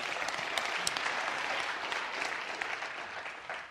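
Audience applause rings out at church after a mandolin and kick-drum performance: steady, dense clapping from many hands that holds at an even level and eases slightly at the end.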